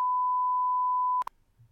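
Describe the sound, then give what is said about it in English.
A loud, steady single-pitch censor beep holds for just over a second, then cuts off abruptly, followed by a couple of brief faint sounds and low rumbling. “I'm going to beep this out, so we'll have this sentence anyway in the podcast.”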